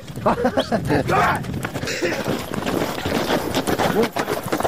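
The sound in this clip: A horse gallops during an ulak game, with rapid, irregular hoofbeats pounding under loud voices and shouting.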